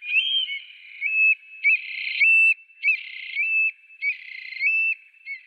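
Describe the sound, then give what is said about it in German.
A Eurasian scops owl of the Mediterranean region calls in a steady series of short, clear whistled notes, loud and alone, each pure tone repeating at an even pace. “Und dann kommen wir fast schon zu den nervigen Geräuschen, die man im Mittelmeerraum. Die Zwergeule. Ich finde die toll, aber die. Die ist nicht nervig.”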